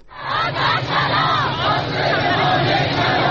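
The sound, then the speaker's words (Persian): Social security retirees protesting over their living conditions chant as a crowd in an Iranian city. Many loud voices shout together in a dense, continuous roar. “تجمع اعتراضی بازنشستگان سازمان تأمین اجتماعی در بیش از 15 کشور ایران از جمله تهران، مشهد، شوش، تبریز، شیراز و اصفهان.”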